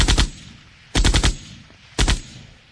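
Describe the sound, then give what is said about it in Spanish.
Hitmen's guns fire three short bursts of rapid automatic fire. Each burst holds several sharp, loud cracks in quick succession, with brief silences between the bursts. “este sonido tiene que ver con que balas de sicarios”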